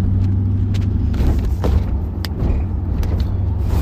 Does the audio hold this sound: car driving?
yes

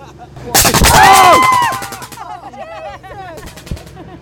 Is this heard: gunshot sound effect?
yes

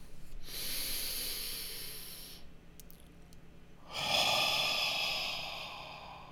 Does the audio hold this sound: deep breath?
yes

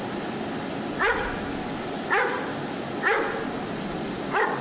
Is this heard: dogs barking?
yes

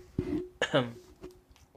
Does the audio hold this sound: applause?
no

